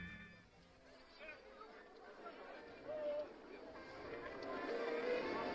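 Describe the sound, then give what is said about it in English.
Theme park crowd ambience from Disneyland Paris: a faint, continuous murmur of chatter and babble, with a few thin tonal sounds rising above it and the level swelling slightly toward the end. “What you're hearing right now is the live background from Disneyland Paris”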